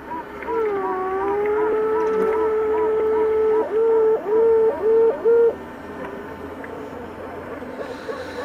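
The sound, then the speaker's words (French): A queen bee piping just after hatching: a long, sustained steady tone, then four short, loud toots in quick succession, over a faint low hum. “Maintenant, écoutez, ce n'est pas le loup, mais c'est le cri de la reine des abeilles.”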